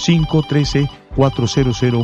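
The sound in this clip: Telephone ringtone for an incoming call on a radio call-in show: two bursts, each of four quick, bright electronic pulses, split by a brief pause.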